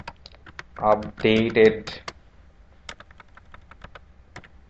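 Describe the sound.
Typing on a computer keyboard: a fast, irregular run of crisp key clicks, fairly faint, following a brief stretch of a voice talking.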